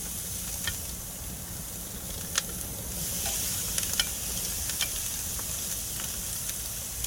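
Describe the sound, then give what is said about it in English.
Boneless chicken thighs sizzle on an oiled grill in a steady, bright hiss, with scattered small pops and crackles throughout and no talking. “So you don't have to oil the grill as much. And the thighs are a little fattier too, so it's usually pretty good. Again, being that there's no bone in here, this won't take very long either.”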